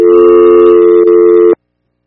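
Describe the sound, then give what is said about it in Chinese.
A telephone busy signal after a caller's line dropped, a loud steady electronic tone lasting about a second and a half before cutting off abruptly into silence. “肖女士已经掉线了吗？”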